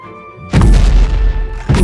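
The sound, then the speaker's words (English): Heavy crashing as a giant creature smashes through a massive gate, a loud booming smash with a long rumbling tail, followed by a second heavy hit near the end. “Boom! Boom! Boom! Boom! Smash! The massive gate split apart.”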